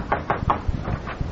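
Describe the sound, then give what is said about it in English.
Knocking on a door: a few quick, muffled raps in a short, uneven series, followed by softer, duller thumps. “Somebody knock.”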